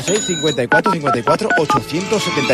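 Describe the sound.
Telephone keypad tones are dialed in a quick run of many short beeps, heard under a voice that keeps talking.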